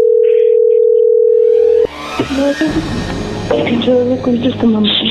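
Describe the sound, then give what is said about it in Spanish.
Steady telephone tone heard while placing a call, a loud, unbroken single-pitch hum lasting almost two seconds before it cuts off and voices begin talking over the line. “Le estamos marcando otra vez”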